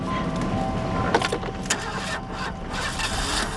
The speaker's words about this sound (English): Oh, not again. Sounds like your starter's going bad.